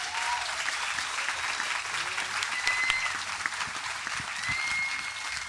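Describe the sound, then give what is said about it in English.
Festival audience applauding to welcome two speakers, a dense and steady round of clapping that holds at an even level throughout. “Please give an enormous Leaves welcome to our two speakers.”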